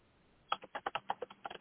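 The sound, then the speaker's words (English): Typing on a computer keyboard: after a brief silence, a quick, faint run of many clicky keystrokes in an uneven rhythm. “I was trying to type in as I was speaking, trying to multitask here.”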